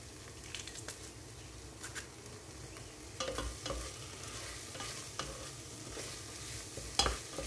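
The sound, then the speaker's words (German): Tomato paste and pressed garlic fry in a pan with a continuous bright sizzle, broken by scattered scraping and tapping from stirring and a sharper click near the end. “Jetzt röste ich darin noch ein bisschen Tomatenmark an und den Knoblauch kann ich auch gleich dazu pressen.”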